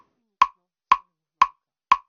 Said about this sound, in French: Voilà, donc là, ce qu'on entend, c'est le bruit du métronome.